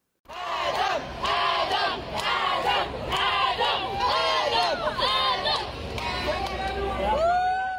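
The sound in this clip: A crowd of a welcoming committee greeting a child arriving abroad for medical treatment cheers and shouts, many voices chanting and calling out in a loud, continuous roar that barely pauses throughout.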